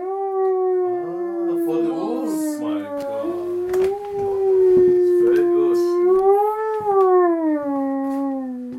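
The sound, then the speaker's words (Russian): A hunting call instrument imitates a wolf howl with one long, loud, continuous tone that wavers and gently rises and falls in pitch, sustained for the whole stretch. “Я заспеў гаспадара, калі той дэманстраваў гасцям паляўнічыя амаль музычныя інструменты.”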